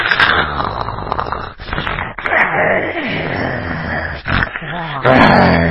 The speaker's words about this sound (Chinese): 好，模仿过了兔子以后，来说说老虎什么叫声啊？ 老虎就是，